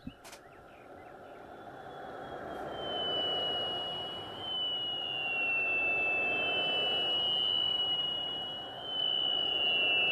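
A poorly designed electric car pedestrian warning sound: a thin, high-pitched whining tone that wavers slightly in pitch, riding over a broad rushing noise that swells and holds at a moderate level.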